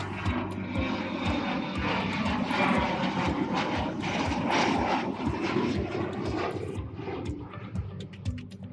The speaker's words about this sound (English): Sitting in Copenhagen Airport in the terminal, in the departure gate on Singapore Airlines